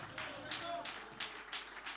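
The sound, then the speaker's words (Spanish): Rhythmic clapping from an audience praising God at a Sunday celebration church service, faint and even, with claps falling on a steady beat of roughly three per second. “Con fuerza ese aplauso de alabanza al Señor.”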